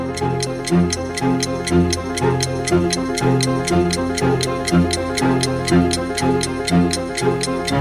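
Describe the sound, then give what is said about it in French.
Steady clock ticking, many crisp, evenly spaced ticks at a brisk rhythm, set over a looping tonal musical backing that holds at a constant level throughout. “Tic-tac, tic-tac.”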